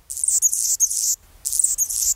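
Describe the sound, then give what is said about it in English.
A male Anna's hummingbird sings on a chilly February morning near Seattle, below 40 degrees: high, thin, scratchy squeaking phrases, two bursts separated by a brief pause, heard alone. “On a chilly February morning near Seattle, with the temperature hovering below 40 degrees, a bird is singing lustily.”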